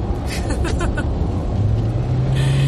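A car drives along the Shin-Tomei expressway in Japan, giving a steady road and engine rumble with a low hum that becomes more prominent in the second half.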